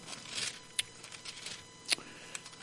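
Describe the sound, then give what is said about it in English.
Bible pages are turned in a few soft, papery swishes and flicks, quiet and spaced apart against a faint background hush. “Hope you can hear the pages turn.”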